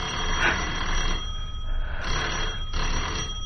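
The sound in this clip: A telephone ringing with a steady, continuous electric ring over a hissy background, holding without pause for the whole stretch.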